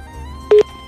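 A single short electronic beep over a low steady line hum as a caller's telephone connection cuts off during a radio phone-in call.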